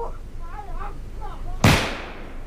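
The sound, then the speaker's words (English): A black powder gunshot goes off as a single sharp, loud blast with a short fading tail, right after a man's voice speaks. “There. But it was a wasted shot, and that's the last of my powder.”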